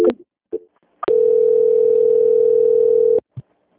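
A steady, loud telephone line tone sounds for about two seconds while a call is being transferred. It is preceded by a few short clicks and followed by one more click.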